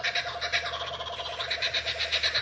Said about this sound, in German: Der lachende Hans, ein typischer Vogel des australischen Urwalds.